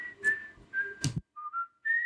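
A person whistles a short melody of several clear held notes. The pitch shifts between phrases, with brief gaps between them, and the whistle is heard alone at moderate loudness.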